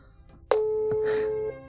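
A telephone call ringing unanswered, heard as one steady electronic ring tone lasting about a second, with a few faint clicks before it.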